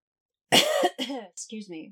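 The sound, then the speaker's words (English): A combined burp and cough: one rough, throaty burst, followed by a few shorter voiced sounds. “I like burped and coughed at the same time.”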